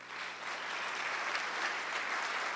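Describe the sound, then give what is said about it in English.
Audience applause at an event honoring academic and community partners: steady, dense clapping that holds at an even, fairly soft level for the whole clip, with no voices over it. “Let's give both a round of applause”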